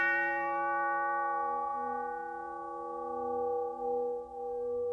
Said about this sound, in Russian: сержант, не сильно размахнувшись, ударил в гонг стволом СВТ.